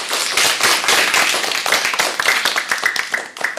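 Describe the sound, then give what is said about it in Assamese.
Loud, sustained clapping from an audience at a children's singing gathering, with many quick claps overlapping into a dense, steady patter from start to finish. “সকলোৱে ধ্যানৰ কাৰণে জোৰে জোৰে হাত চাপৰি বজাই দিয়া”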